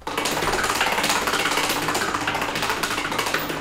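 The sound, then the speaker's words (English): A prize wheel spins and clicks as it turns, making a dense, rapid stream of loud ticks that runs steadily throughout with no voices. “Please land on this. Please land on Sam, this. Sam, spin the wheel.”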